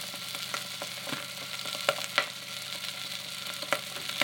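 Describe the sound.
Food frying in a hot, smoking pan gives off a constant hiss, with scattered sharp crackles and pops breaking through the sizzle.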